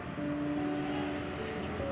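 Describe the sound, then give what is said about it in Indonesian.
Motorbike engine drone from traffic on the road beside a home, a steady buzzing hum with a sustained whining tone throughout and no clear swell of a single pass-by. “btw tadi kalau ada suara-suara motor bisa diabaikan aja ya”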